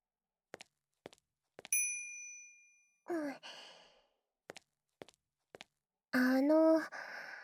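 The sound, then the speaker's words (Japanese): A call bell for summoning a maid gives one bright, ringing ding that decays over about a second. It comes among several sharp, dry taps and a couple of short breathy vocal sounds. “ご注文が決まりましたら、このベルで近くのメイドをお呼びくださいませ。”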